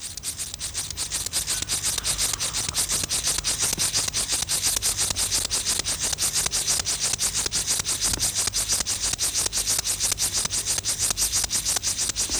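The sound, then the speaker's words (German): Rasping song of a Linnaeus grasshopper, a small field grasshopper, made by rubbing its hind legs over its forewings. The scratchy buzz of rapid, regular pulses holds loud and unbroken throughout. “Besonders gut eignet sich dazu der Linnaeus-Grashüpfer. Das ist eine kleine Feldheuschrecke. Sie erzeugt ihren Gesang, indem sie die Hinterschenkel über die Flügeldecken reibt.”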